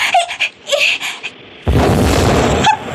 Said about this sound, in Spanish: ¡El barco explotó!